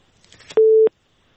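A telephone busy tone follows a dropped call: a single short, steady, mid-pitched beep, preceded by a few faint clicks.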